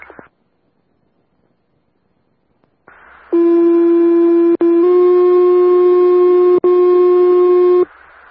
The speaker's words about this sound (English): Will you put out fire tones for additional?